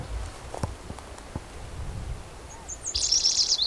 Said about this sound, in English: I think that's a yellow warbler singing.